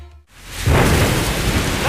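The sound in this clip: Heavy rain roars as a dense, steady hiss that starts abruptly after a brief near-silence and thickens further within a second, staying loud to the end.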